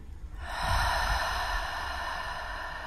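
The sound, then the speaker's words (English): A seated group with hands over their hearts takes deep breaths: a long, breathy rush of air swells up after a brief pause and holds steady, with no talk. “Sitting in your seat, placing your hands over your heart space if you would, taking some deep breaths. Two more.”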